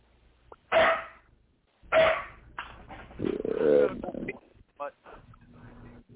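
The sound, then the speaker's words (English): An older female dog barks in a few loud, sharp bursts, with rougher, uneven vocal sounds filling the gaps between them. “What are you barking for?”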